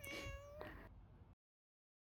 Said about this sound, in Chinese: 好好好，真是小夹子猫猫。怎么这么会撒娇啊？